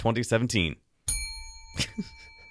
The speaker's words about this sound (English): I'm not sure why you rang the shame bell at the end of the segment.